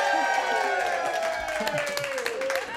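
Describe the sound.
A live studio audience cheers and applauds in a short, loud burst of clapping mixed with whooping voices.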